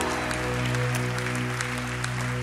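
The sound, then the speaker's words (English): A church audience applauding and making noise: a continuous wash of clapping and crowd sound that holds steady throughout, with a sustained low tone running underneath. “Come on, you can do better than that. Make some noise if you're glad to be in church today.”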